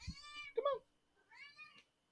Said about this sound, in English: is your cat meowing in the background? Yeah, they're trying to. Mine was just meowing too.